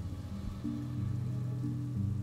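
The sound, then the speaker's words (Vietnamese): Rain falls outside, a faint, steady hiss of patter that stays even throughout, alone with no talk. “Bên ngoài mưa cũng nhỏ dần rồi tạnh đi.”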